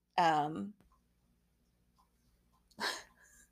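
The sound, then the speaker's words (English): A dog gives a single loud, tonal bark with a falling pitch, then goes quiet before a short, noisy breathy burst. “I'm sorry, my dog has me distracted now.”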